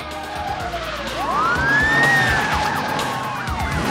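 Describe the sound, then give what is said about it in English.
Police car sirens wail as a large convoy of police cars with lights flashing speeds toward a motel. A rising siren sweep enters over engine roar, then warbles up and down as the sound swells loudest mid-clip and eases slightly. “A large convoy of police cars, lights flashing, speed towards the motel.”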